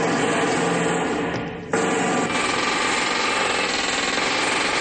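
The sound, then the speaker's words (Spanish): Drills boring holes in a gate, worked by German soldiers in a World War II setting: a loud, harsh, continuous mechanical rattle that dips briefly near the middle, then resumes steadily. “Fuera los alemanes agujerean el portón con taladros.”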